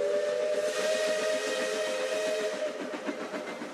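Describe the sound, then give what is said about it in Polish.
A distant steam train gives a long, steady whistle over continuous hiss, with a rhythmic chugging beat running underneath throughout and no voices. “W oddali słychać odgłosy wojny, stukot pociągu.”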